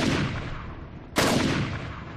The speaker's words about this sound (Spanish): el coreano sacó una de sus pistolas y disparó sin piedad contra su exnovia y contra el recién llegado.